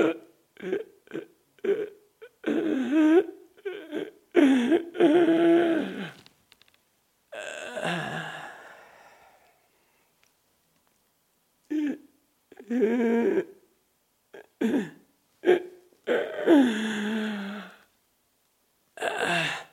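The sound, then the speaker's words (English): A person imitating the labored breathing of an asthma attack: many strained, wheezy, voiced breaths in irregular bursts, broken by short pauses and one long silence. “I remember many nights I would breathe all night long like this, and I'll demonstrate one or two breaths. It was like this.”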